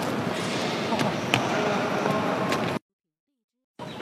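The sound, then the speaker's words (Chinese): A basketball bouncing on a court during a game, a few dull thumps within a busy, noisy background, broken by a sudden stretch of silence before the noise returns. “打篮球也打那么好，而且看我们一遍就会了。”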